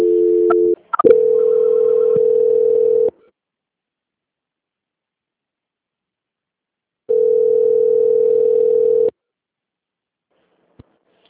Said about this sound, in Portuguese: Aí a senhora aguarda só um instante em linha, que eu já estou transferindo a sua ligação, tá bom?